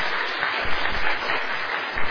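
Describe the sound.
Audience applause during a talk, honouring the speaker's wife on their 14th wedding anniversary: a dense, even patter of many hands that holds steady for about two seconds.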